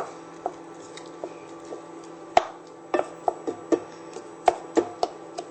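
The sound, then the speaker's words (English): Spelt simmers down in coconut milk with dates, giving a string of many soft pops and sharp little ticks at irregular intervals over a faint, steady background hum. “You can see the coconut milk is cooking down into the spelt.”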